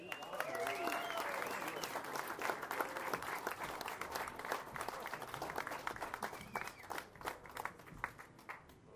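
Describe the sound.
Audience applause welcoming a performer, dense and steady clapping that holds at a fairly even level for about nine seconds before easing slightly toward the end.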